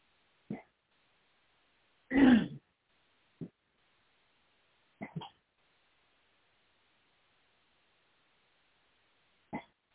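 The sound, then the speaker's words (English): A person clears their throat a few times in short, rasping bursts. One is longer and louder than the rest, and each is separated by quiet gaps. “I've got to do something, get my throat clear.”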